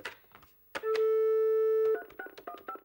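A telephone ring tone as an estate agent calls a client about a flat, one steady, clear tone lasting about a second, with short tonal blips before and after it.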